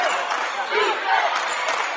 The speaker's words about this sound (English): Staccato clapping from the Jackson Center crowd behind us as they yell defense, defense.